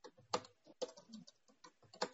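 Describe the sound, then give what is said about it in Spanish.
Typing on a computer keyboard comes in quick, uneven bursts of crisp clicks, heard alone over a couple of seconds. “¿Estás escribiendo? No, yo estoy escribiendo.”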